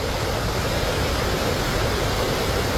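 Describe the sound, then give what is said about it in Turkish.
The Kanispi Waterfall in Çatak, Van, roars as a dense, continuous rush of falling water. The sound is loud and unbroken from start to finish, with no voices. “Burası Van'ın Çatak ilçesinde bulunan Kanispi Şelalesi.”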